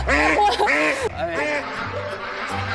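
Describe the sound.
A heavy, fat duck of about six jin quacks while being picked out and hefted: a few loud, harsh, nasal quacks, followed by fainter, shorter ones.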